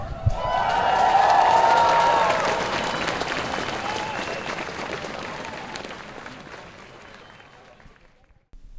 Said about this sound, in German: So klang es am 5. Dezember 2025 beim Schulstreik hier in Erfurt.